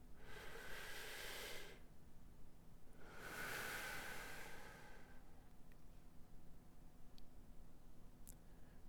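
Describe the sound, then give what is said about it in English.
Slow, deep breathing in and out: two long, airy breaths of about two seconds each, the second fuller, followed by a quieter stretch with a few faint clicks. The sound is soft throughout. “let's take all a real big deep breath in and out, and I'm talking like 5 seconds in and 5 seconds out”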